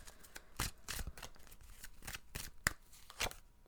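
Tarot cards being shuffled and one picked out: a quick run of papery riffles and slaps, with a few sharper snaps standing out, and no talking.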